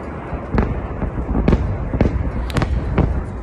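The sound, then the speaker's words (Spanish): Rocket attack explosions over Israel being intercepted by a missile defence system: several dull booms and cracks strike at uneven intervals over a constant rumbling roar. “Este es el sonido con el que conviven a diario miles de israelíes ante los ataques llevados a cabo por Hamás y que son repelidos por la conocida cúpula de hierro, capaz de detener los misiles lanzados por el grupo terrorista.”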